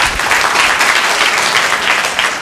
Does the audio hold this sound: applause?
yes